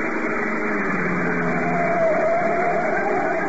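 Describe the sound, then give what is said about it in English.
A black sedan drives up a curving mountain road in Puerto Rico's inland plantation country, its engine a loud, steady drone with a faint whine that lifts briefly midway. “20 minutes later, a black sedan twists up the curving mountain road leading to the inland plantation country of Puerto Rico.”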